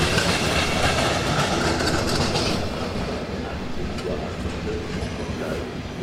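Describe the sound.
German regional train rolling along the rails with a wheel carrying a flat spot, a continuous clattering rumble of wheels on track that eases slightly in loudness during the second half.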